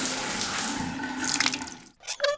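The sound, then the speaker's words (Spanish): Water poured from buckets while bathing: a steady rushing splash with a gurgling undertone that thins out and then cuts off abruptly near the end. “¡No! No te bañes a baldados por olvidar pagar el agua.”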